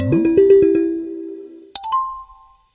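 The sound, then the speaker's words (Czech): A phone rings for an incoming call, playing a short chiming ringtone melody that holds a steady note and fades. A brief bright electronic chirp and a thin tone follow, then it goes quiet. “A už volá zpátky, takže super.”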